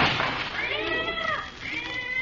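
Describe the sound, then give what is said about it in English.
A cat meows twice. Each meow is a drawn-out, wavering cry, and the second is a bit shorter. “Oh, it's a cat.”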